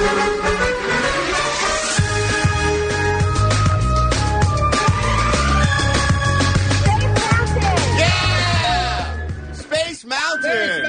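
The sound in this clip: Soundtrack music from Disneyland's Space Mountain ride carries a steady low rhythmic pulse under layered tonal lines and sliding sweeps, then thins and fades in the final seconds.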